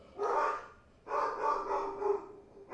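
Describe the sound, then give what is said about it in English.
Dogs barking at home, faint bursts of barking separated by short quiet gaps, the middle burst holding several barks in quick succession. “Oh, the dogs are barking. They hear something.”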